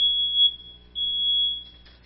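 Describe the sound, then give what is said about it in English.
A smoke detector sounds its test alarm, a shrill, steady high-pitched tone that holds for about two seconds with one brief dip in the middle. “It's a smoke detector, and it really has a simple purpose. When it detects smoke, it makes a noise. You can test them for the batteries. It makes a noise like this.”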